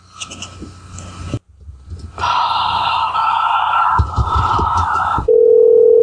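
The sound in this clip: An electronic telephone tone sounds on the line while the caller waits for someone to pick up. It is a steady tone held for about three seconds, then shifts to a lower steady tone, with faint breathy sounds before it.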